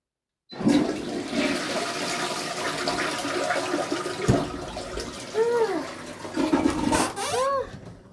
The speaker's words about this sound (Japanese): さあ、今日も流しますね。